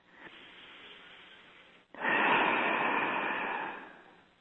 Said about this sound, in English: So take a nice deep breath and from your heart, push those feelings forward.